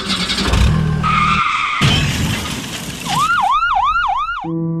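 Sound effect of a car driving off: loud engine roar and tire skidding noise, followed by a wailing siren that rises and falls in several quick repeated sweeps.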